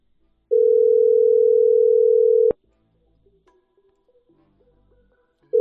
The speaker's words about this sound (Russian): Но у меня даже сохранен. Гудок идет.